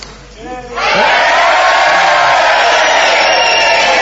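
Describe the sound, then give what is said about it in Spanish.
A crowd in a packed hall shouting all together at once. After a brief voice at the start, a loud, sustained roar bursts in and holds steady for about three seconds. “Vamos a gritar todos a una.”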